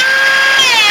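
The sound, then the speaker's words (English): A cordless Dremel whines as it cuts away the plastic around a screw: a loud, steady, high-pitched motor tone that dips slightly in pitch toward the end. “This is the sound of a cordless Dremel.”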